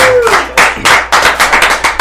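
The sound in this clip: A small group claps for a guest in loud, uneven bursts that fall into a quick, loose rhythm, with a few sharp separate claps toward the end.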